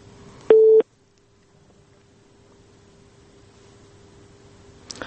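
A telephone line tone on a failed phone call: one short, loud electronic beep near the start, then a faint, steady low hum on the line until a brief noise at the very end.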